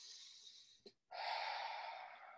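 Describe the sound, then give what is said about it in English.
A person takes a deep breath: a brief snort, a short pause, then a long, airy inhale that rushes steadily for over a second. It is faint, with no talk. “did you take a breath? Yeah. It's like you almost can't help yourself but to take that breath.”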